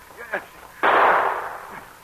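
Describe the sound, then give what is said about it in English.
A single gunshot fired near the opening of a mine cracks out suddenly as a loud, sharp burst, then trails off in a rough, decaying rumble. “And then Pierre heard shots. He ran as fast as he could toward the sound, and again he heard one as he approached the opening into Steve's mine.”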